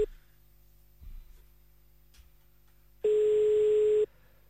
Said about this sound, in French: Décroche pas des masses. C'est le matin. Décroche toujours pas des masses.